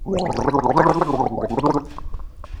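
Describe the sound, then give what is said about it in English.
A person gargles a small mouthful of liquid, about a sixth of a mouthful. The gargle is loud, resonant and bubbling, lasts about two seconds, then trails off into quieter throat sounds. “That was a gargle like no other. There was resonance.”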